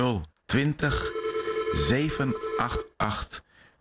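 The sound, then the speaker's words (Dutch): Telephone ringing with an incoming call to a studio phone line, with loud, bright, repeated bell rings separated by brief pauses. “En ik zie, er komt al een beller binnen.”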